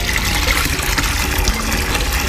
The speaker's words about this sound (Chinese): 小乐，你仔细听听这个醋落下去的声音。